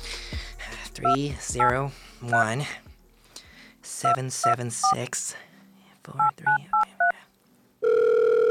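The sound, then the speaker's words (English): A telephone being dialed, with several bursts of beeping keypad tones in quick groups mixed with a talking voice, then a steady, sustained line tone starting at the very end. “This motherfucker better pick up the goddamn phone this time.”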